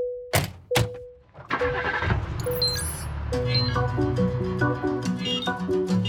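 A taxi starts and pulls away: two short horn-like toots, then an engine surges into a broad driving roar, with a bright melodic tune playing over the motor noise.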